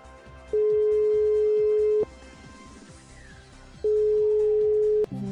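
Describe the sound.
Ringback tone of a phone call placed as a lifeline during a quiz game show: two long, steady, mid-pitched tones about a second and a half each, separated by a pause, over a faint steady background.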